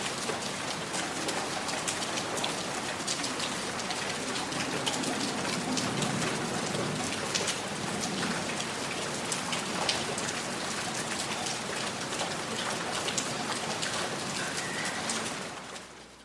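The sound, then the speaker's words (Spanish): Rain falls in a dense, steady hiss of countless drops pattering on surfaces, holding an even loudness for about sixteen seconds before tapering off at the end, with no voices. “¿No sienten esa lluvia que moja ahora mismo nuestros rostros?”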